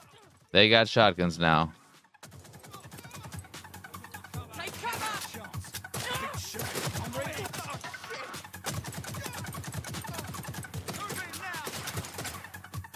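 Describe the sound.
Shotgun fire in a video game: a loud burst opens, then a long run of many sharp, fairly faint cracks follows in quick, irregular succession.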